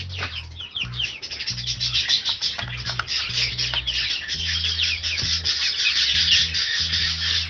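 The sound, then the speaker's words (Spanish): About 60 Australian parakeets sing in a dense, continuous chatter of high chirps and trills, with a low pulsing hum underneath. “Sí, tengo como entre 60 loros más o menos que tengo, australianos, loritas australianas. Este canto lo tengo todo el día, toda la noche si le prende la luz.”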